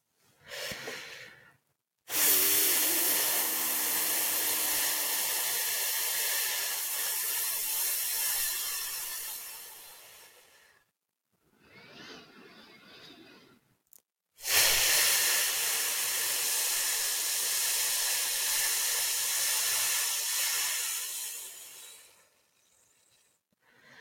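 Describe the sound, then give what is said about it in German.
Slow voiceless F exhalations during a guided breathing exercise: two long, steady, breathy hisses, each lasting several seconds, with a quieter, shorter breath sound between them. “Und jetzt atme tief ein und atme fast ohne Ton aus dem Laut F aus.”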